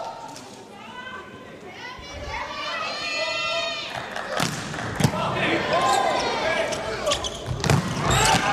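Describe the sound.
Volleyball serve by player number 23 during a match, with a few sharp slaps of the ball ringing out over steady crowd noise and voices.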